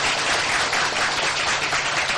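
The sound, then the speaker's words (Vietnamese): A long round of applause from a Buddhist audience at a temple, dense, steady clapping that stays even throughout without voices. “Phật tử cho một tràng vỗ tay thật dài.”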